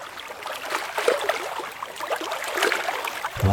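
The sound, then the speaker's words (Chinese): Gentle river water sloshing and trickling, standing in for a little fish swimming, as a continuous soft burble with light splashes. “小朋友，你想不想听一听小鱼在河里游泳的声音呀？”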